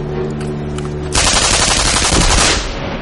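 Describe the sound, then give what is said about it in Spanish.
Gunfire from a gun in a wartime scene bursts in abruptly after a low tonal hum. It is a loud, rapid stream of shots lasting about a second and a half, then cuts off. “Entonces corre hacia el alemán muerto y toma su arma. Por la espalda dispara el que queda.”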